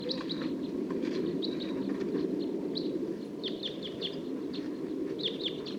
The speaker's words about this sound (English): Song of one of the wild birds. And the flock's taking off.